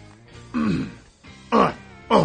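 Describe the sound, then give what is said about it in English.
Throat clearing and coughing come in three separate rough bursts, each a harsh, raspy hack standing out from a quieter background. “If I just start coughing like that, like Neil Hamburger.”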